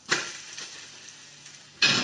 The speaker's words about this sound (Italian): Procediamo a una rapida dimostrazione su come si gira la frittata. Occhi aperti.